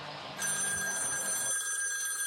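A telephone bell rings as the signal for a bullpen call during a baseball game. It starts shortly after the opening and rings steadily and fairly loudly to the end, with a bright, sustained tone over a faint background.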